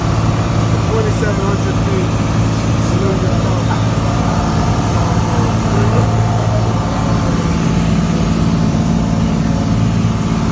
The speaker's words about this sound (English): that's the plane I used to fly. A Cessna 172.